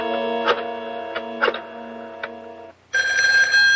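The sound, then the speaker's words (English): Telephone ringing late at night: a bright, harmonic electronic ring sounds in two long stretches separated by a short break, the second slightly higher and sharper, with no talking. “Back in Santa Luisa, a young man answers the call.”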